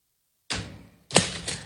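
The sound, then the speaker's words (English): A solid metal tape measure is pulled out in two quick rasping bursts. Each starts abruptly and fades over about half a second, and the second is slightly louder and sharper. “And I'm extending this. This is a nice, solid tape measure.”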